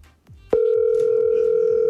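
Telephone dial tone while redialing a call: a steady, loud, unbroken hum that starts abruptly about halfway through and holds to the end, preceded by a few low knocks.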